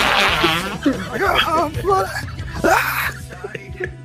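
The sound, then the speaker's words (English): A human voice imitates a fart, done as for a fart competition. It makes a buzzy, wavering raspberry with shifting pitch, broken into several loud bursts over a few seconds. “that's how I just did mine for the fart competition.”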